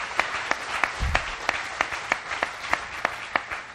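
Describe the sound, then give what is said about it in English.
Audience applause welcoming a speaker at a worship gathering, many hands clapping with sharp claps landing on a regular beat over a steady wash of clapping. “You guys all know Bob Probert. We love him, and I know he's going to hit me afterwards. But anyway, let's give him a warm welcome.”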